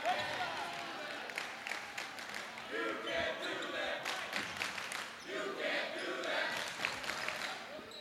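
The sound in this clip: A basketball is dribbled on a court during a game, many quick bounces thudding in an uneven rhythm. A commentator talks over them, with crowd noise faint underneath.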